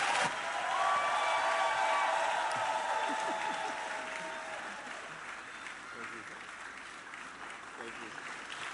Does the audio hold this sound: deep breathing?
no